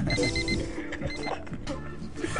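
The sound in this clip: A mobile phone alarm, set to wake someone, sounds as a rapid run of high, thin beeps at the start, then fades into a jumble of background clatter.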